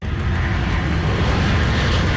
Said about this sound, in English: A plane carrying over 100 firefighters from Mexico touched down in Abbotsford.